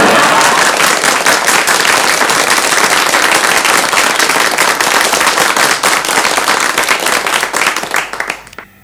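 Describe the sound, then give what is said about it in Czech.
Big audience applause in Brno: dense, loud, sustained clapping from a large crowd with sharp crackling hits, which thins and tapers away near the end. “Myslím, aby se diváci nenechali mýlit tím velkým potleskem, to jsou sami mi příbuzní tady”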